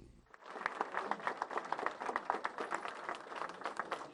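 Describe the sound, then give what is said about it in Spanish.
Applause and cheers from an audience welcome Senator Scott at an event in a city councilwoman's offices in West Miami. The clapping is dense and steady and runs loudly for a few seconds. “Con vítores del público presente, fue recibido el senador Scott en este acto que tuvo lugar en las oficinas de la concejal de la ciudad de West Miami, Rebeca Sosa”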